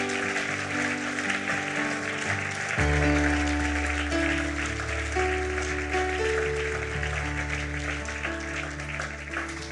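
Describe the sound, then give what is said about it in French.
An audience at a French-language church service claps to acclaim the Lord, a continuous wash of applause. Sustained keyboard chords play alongside and shift to new notes around three seconds in. “Est-ce qu'on peut acclamer le Seigneur pour ces personnes?”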